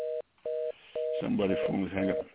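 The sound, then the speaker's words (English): A telephone line having trouble gives three identical steady beeps with short gaps between them, then a person starts talking while the line sounds on underneath. “somebody's phone is hanging up. Here, giving some trouble here. Somebody's phone giving some trouble here.”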